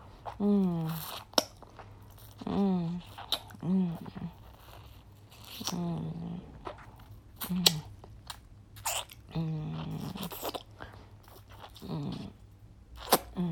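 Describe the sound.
Chewing and eating food, with moist biting and crunchy mastication noises recurring in bursts between stretches of a talking voice.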